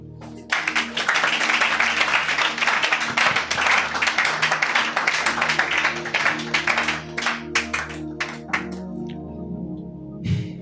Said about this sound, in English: Clap.